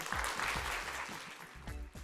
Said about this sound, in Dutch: Mag ik een warm applaus voor de girlboss van vanavond.